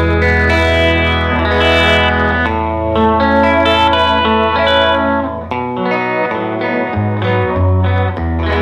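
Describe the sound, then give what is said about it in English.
Wavering, slightly out-of-tune chorus tone from a VG-99 guitar effect, blended with a clean guitar sound for a doubled effect. Sustained chords ring loud and steady and change a few times, with a shimmering, detuned warble throughout. “Here's the VG99 sound. See how it's very out of tune-ish, mm-hmm. wavering? I use that with the regular clean sound.”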